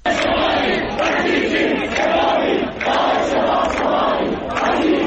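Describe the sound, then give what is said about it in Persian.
A large crowd of protesters shouts and chants at Tabriz University of Medical Sciences. The massed voices are loud and continuous and rise and fall in rhythmic waves. “صدای یکی از اعتراض‌ها رو در دانشگاه علوم پزشکی تبریز که حاضران در اون بسیار پرتعداد دیده میشن میتونیم بشنویم.”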